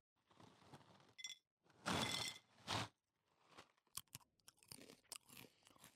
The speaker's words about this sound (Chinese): 你在吃什么啊？扭结脆片呢？